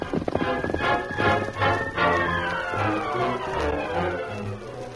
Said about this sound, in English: As they rode into the hideout from the entrance, the Lone Ranger